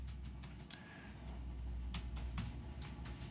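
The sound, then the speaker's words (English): Typing on a computer keyboard: quiet, irregular clicks in short bursts, some keystrokes landing close together and others spaced apart, with no talking. “Oh, doggone it. I gotta type. You know I can't talk and type at the same time.”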